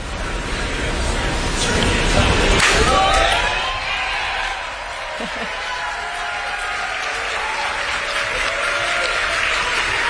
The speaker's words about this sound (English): Seen all three lit, down to two. Starship has landed. So that sounds like a cheery moment for staff